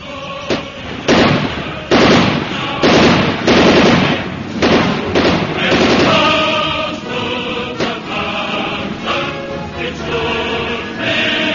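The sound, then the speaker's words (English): Gunfire in a radio drama shootout: many sharp, loud shots crack in rapid bursts, close together at first and then spacing out into scattered single reports, with no voices heard. “He's firing. Let him have it.”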